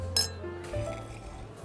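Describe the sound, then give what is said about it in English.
Wine glasses clink together in a toast at a restaurant dinner: one bright, ringing chime that fades into a quiet hum of background noise. “Cheers. What should we toast to? To coincidences.”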